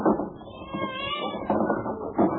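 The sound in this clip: Cats meowing after being let out of a box: a few drawn-out, tonal cries that overlap and run together over a rough, clattering background, fairly loud throughout.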